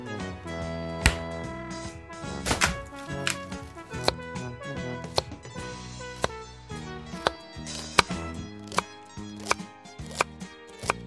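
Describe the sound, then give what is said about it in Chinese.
Knife slicing food into diagonal slices on a cutting board, many crisp strikes at a fairly steady rhythm, with no voices. “现在我们就先切片了。”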